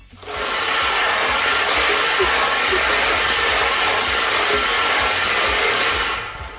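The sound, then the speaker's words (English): A lottery ball machine spinning its balls makes a steady, loud whirring roar with dense rattling. It starts abruptly, holds evenly for about six seconds, then eases off at the end, with no talk. “All right, let's spin the balls.”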